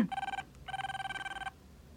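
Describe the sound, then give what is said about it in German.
A telephone bell rings in two bursts of rapid metallic trilling, a short ring followed after a brief gap by a longer one, then quiet; no voices accompany it. “Das Telefon geht hier ständig, wirklich ständig.”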